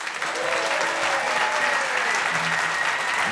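An audience applauds to welcome musician John McEuen, with Matt Cartsonis, onto the stage at E-Town Hall. The clapping is steady and fairly loud, with no break from start to end.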